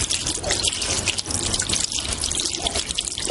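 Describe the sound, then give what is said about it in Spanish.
Tap water running into a hair-washing basin in a hair salon, a steady, loud, hissing gush with constant spatter and no pauses or voices. “Cyril juguetea cabizbajo con el agua de un grifo de un lavadero de cabeza”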